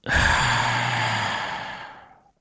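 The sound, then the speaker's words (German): A deep breath during a guided relaxation exercise, heard as one long, loud, airy exhale that starts strongly and slowly fades away, with no talking. “Einatmen. Ausatmen.”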